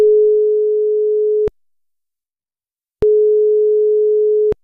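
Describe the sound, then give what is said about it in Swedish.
Telephone ringing tone on a line in Finland while a call goes through: a steady, low-pitched pure tone sounds twice, each about one and a half seconds long, split by an equally long silence, loud and alone. “Nu tänkte vi försöka vara lika lustiga här i finlandssvenska radion. Vi ska ta och slå ett nummer.”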